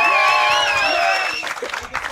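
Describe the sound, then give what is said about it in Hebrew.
Crowd clapping and making noise on request: a sustained high, wavering tone rides over the first part, then a loud mass of clapping and voices carries on with uneven bursts to the end. “תעשו כפיים בבקשה ורעש.”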